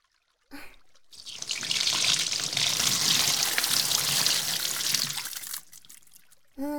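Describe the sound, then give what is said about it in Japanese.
Water runs steadily from a tap or shower as hair is rinsed after shampooing. A continuous broad hiss lasts about four seconds, with short, softer noises just before and after it. “もう一回くらい流しておきましょう。”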